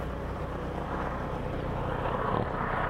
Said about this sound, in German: Ich vermute mal, es ist ein Hubschrauber. Beim Flugzeug müssen sie sich irgendwie schneller bewegen.